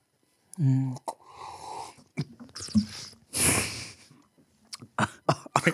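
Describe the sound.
Coughing and sputtering after someone tries to aerate wine in the mouth while drinking. A few harsh, noisy bursts are mixed with other voices.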